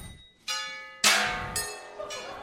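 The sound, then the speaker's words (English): Bells rung by a group in turn down the line, with four separate strikes evenly spaced about half a second apart. Each strike gives a bright, sustained ringing tone whose decay overlaps the next, and the second strike is the loudest. “Now, over here, this is the bell section. So we're going to practice our bells here.”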